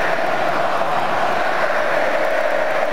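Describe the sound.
A football crowd at the Estadio Azteca roars as one unbroken, loud wash of massed voices, steady in level without distinct claps or chants standing out.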